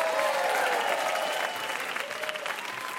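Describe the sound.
Studio audience applause at a quiz game show, a dense, steady wash of clapping that runs the whole time and eases slightly softer in the second half.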